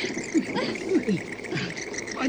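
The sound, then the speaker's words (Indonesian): Many swiftlets chirp and chatter inside an abandoned house, with short swooping calls overlapping in a dense, continuous flock texture at moderate loudness. “Burung apa? Burung walet. Oh, walet. Oh, banyak walet. Sekali. Itu burung walet.”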